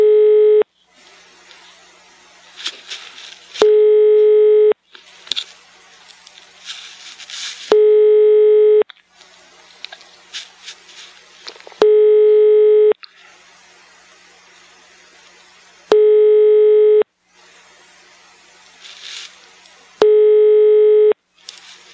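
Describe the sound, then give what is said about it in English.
Telephone line tone on a call being placed to Sweden: five evenly spaced, steady buzzing tone bursts about every four seconds, separated by softer, noisy sounds between them. “People are calling Sweden right now. Soon, a random Swede will be ready to take your call.”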